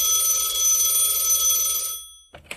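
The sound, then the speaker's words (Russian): A telephone rings with a bright, continuous trilling bell for about two seconds. It then stops, and a brief clatter follows. “Через две недели раздался звонок.”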